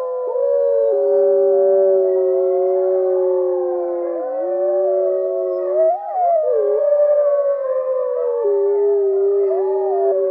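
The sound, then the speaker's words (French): A small pack of wolves howls in a forest at nightfall in Canada. Several long, overlapping, sustained howls waver and bend in pitch, forming a continuous steady chorus with no talking. “Les loups chantent pour communiquer entre eux. Par exemple, pour appeler les membres de la meute s'ils se sont éloignés.”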